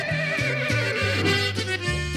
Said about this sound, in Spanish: Y nomás se oían esos relinchidos y los resoplidos de aquel animal.